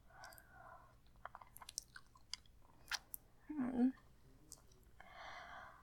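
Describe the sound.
Food is chewed close and quiet, with soft wet clicks and smacks, a louder crunching burst midway and some breathy noise.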